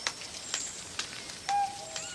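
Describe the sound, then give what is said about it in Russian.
A cuckoo calls near a tent and campfire: a faint two-note call rises out of near-silence late on, preceded by soft, scattered clicking ticks. “услышав кукушку, смотрит вдаль. Кукушка, кукушка, сколько мне жить? Раз.”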